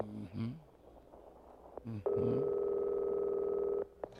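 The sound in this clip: A telephone call rings out while waiting for someone to answer: a single long, steady ringback tone comes after brief voices.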